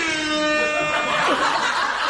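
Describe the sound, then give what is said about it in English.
An air horn sound effect blares as a loud, steady, harmonic tone through most of the moment, with laughter mixed in over it. “What was that? What? The guy, the audio, air horns. Whoever's in audio has been waiting to use that one seriously for like 12 years.”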